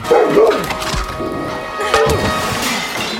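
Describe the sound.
A dog barks and snarls while attacking, with loud bursts near the start and again later, mixed with crashing, thwacking impacts.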